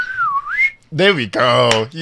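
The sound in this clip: A short wavering whistle that dips and climbs in pitch, blown by presenters trying to copy an excited crowd whistle, then cut off as people talk and laugh.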